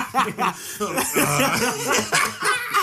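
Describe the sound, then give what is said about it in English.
Someone clears their throat and coughs in a string of short, rough bursts mixed with chuckles and laughter. The sounds come in uneven pulses at moderate loudness. “I just had to clear up my throat.”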